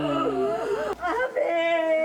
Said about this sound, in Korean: 이 울음 소리에 선율이 들어가 있다는 것이 제 인상 깊었던 것 같아요.